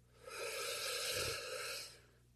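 One long, deep breath taken during a guided breathing exercise, a soft breathy hiss that swells and then fades, heard alone.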